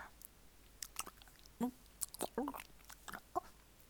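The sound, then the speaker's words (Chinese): Someone bites and chews an ice-cream bar, producing many irregular short crunches and wet mouth clicks, fairly faint, with no talking. “啊，没声音啊，我在吃雪糕呢”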